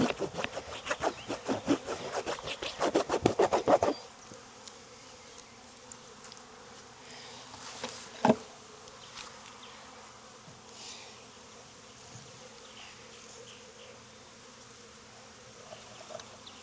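Calm honeybees buzzing in a hive make a steady low hum throughout. Rapid rasping strokes sit on top for the first few seconds, then the buzzing continues alone and softer.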